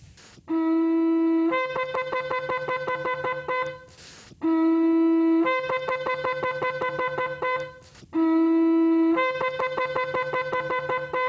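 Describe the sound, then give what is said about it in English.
Shofar sounding the teruah, quick blasts in short succession from the Yom Teruah call. The sequence repeats three times: a short steady horn note breaks into a rapid staccato run of pulses, loud and without speech. “The final blast is called teruah, and these are quick blasts in short succession.”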